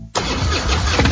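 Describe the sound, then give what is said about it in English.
Engine of a popular American motorcycle catching and settling into a loud, steady, throaty rumble after a brief faint start. “This is the sound of a popular American motorcycle. It's the sound of freedom, the open road, really good times.”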